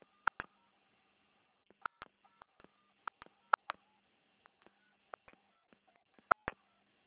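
Telephone keypad tones as a bank branch number is keyed in: many short, bright beeps in quick, uneven bursts with brief silent gaps.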